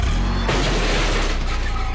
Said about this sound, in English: That's the sound of a car backing into a garbage can.